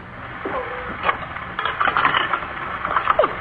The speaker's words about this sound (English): Let's try the handmill. I wish for some good herring and some broth to go with it. Come on, little wheel. Turn and grind out my command.